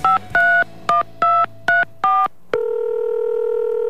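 Telephone keypad dialing tones sound as six short, clean beeps in an uneven rhythm. A steady, continuous tone follows and holds loudly to the end, with no talk.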